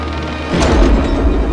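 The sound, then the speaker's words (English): A heavy wooden cathedral door shuts with a single deep boom that fades into a low rumble, under a steady rain-like hiss. “Kwazi staggers into the cathedral and closes the heavy wooden door behind him”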